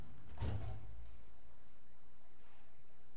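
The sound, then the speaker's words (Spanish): Faint lift doors sliding in a corridor, with a soft rumbling whoosh early on and a quieter sweep near the end, alone with no voices. “La puerta se abre y sube. La puerta se cierra.”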